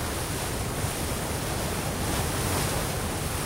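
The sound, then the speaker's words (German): Sea waves and spray wash over the deck of a sailing ship, a steady, dense roar of surf mixed with wind noise that holds at an even loudness throughout. “Oben auf Deck können wir eigentlich gar nichts machen. Es gischtet und es ist feucht.”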